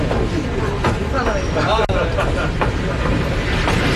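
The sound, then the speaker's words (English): Train ride rumbles with steady wheel and carriage noise, a continuous loud clatter that carries on throughout, and a voice is briefly heard over it. “Well, certainly have been on a train journey, all right.”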